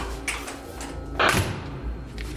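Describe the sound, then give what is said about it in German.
A door swings open after its lock has broken, making a soft knock early on, then a louder wooden clunk and thud midway, followed by faint rattling against a low background hum. “Jetzt ist der Schloss kaputt. Ah, yes! Dafür die Tür offen.”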